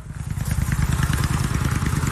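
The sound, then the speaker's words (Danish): A motorcycle engine runs at a motorcycle rally, a loud, rapid, throbbing chain of firing pulses that holds steady throughout. “Men lige med min motorcykel, så... Ej. Den kan jeg nu ikke undvære lyden på.”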